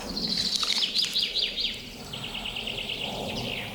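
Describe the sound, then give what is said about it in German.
Thin, high-pitched calls of a goldcrest in quick repeated series, bright and moderately loud at first, then fainter and more drawn out over a low background rumble. “Oh, da war ein Goldhähnchen.”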